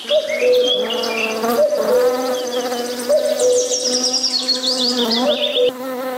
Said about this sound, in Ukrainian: Давайте додамо до нашої розмови бджіл, послухаємо їх.